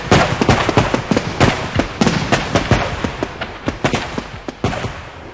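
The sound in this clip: A firecracker bomb goes off as a long chain of sharp cracks and pops, with many loud bangs in a rapid, uneven rhythm.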